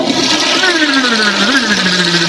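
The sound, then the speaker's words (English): A toilet flushes with a loud, continuous rush of water. A whistling tone inside the flow slowly sinks in pitch, and the sound holds steady throughout without any voices. “When you stick your head in the toilet and you flush.”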